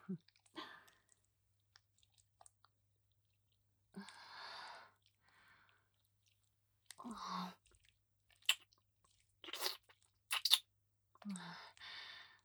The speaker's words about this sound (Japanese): コリコリして美味しそうだね。僕が食べたくなっちゃったから食べちゃうね。